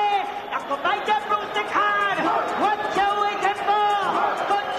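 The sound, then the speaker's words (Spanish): Concert audience at an Ali Suar show with 3D images projected above the crowd: a continuous, fairly loud mass of many raised voices, overlapping shouts and calls wavering in pitch. “Ahí escucháis al público y proyectando imágenes encima de él, 3D en este momento.”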